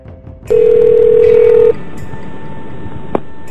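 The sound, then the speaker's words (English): Telephone tones on a payphone call placed with a red box: one long, steady mid-pitched tone, then a fainter lingering line tone and a single brief click near the end. “I called from a payphone using a red box, so the call was extra illegal. And I pretended to be the AT&T operator. So here it is. Here's the original call to Mildred Monday”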